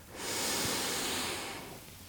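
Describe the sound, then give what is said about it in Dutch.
One deep inhalation, taken with the shoulders raised during a guided relaxation exercise: a long, steady, airy breath that swells and then gently tapers off, heard alone without talk. “Trek je schouders op en adem in”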